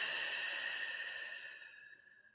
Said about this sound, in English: I want you to take a nice deep breath in and relax.